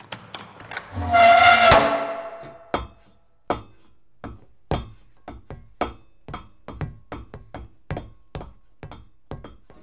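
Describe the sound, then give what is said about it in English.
A hatch being opened: a loud grinding scrape with a ringing tone lasts about a second, followed by many sharp, evenly spaced metallic clanks that continue to the end. “open the hatch. With gusto!”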